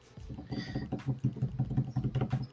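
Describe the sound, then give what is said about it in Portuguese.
Soft computer clicks and taps come while someone shares a screen. They form a quiet, irregular patter of many small clicks over a low background murmur. “Vou clicar em ap apresentar de novo, parar a tela, apresentar, compartilhar a tela.”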